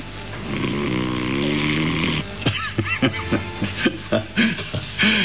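A man snoring while asleep on the other end of a phone line: a long, rasping, drawn-out snore, then a run of short, choppy breathy bursts heard through the line.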